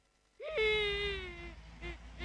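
A child whimpering and crying, a drawn-out, slowly falling wail followed by a shorter second sob, fairly faint.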